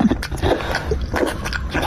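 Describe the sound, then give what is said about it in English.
Wet chewing and biting from a man eating feces, captured on a muffled mid-1980s JVC camcorder recording. The mastication is continuous, squishy and dull-toned, with irregular louder bursts throughout. “Listen to this guy eating poop. It's like you're there.”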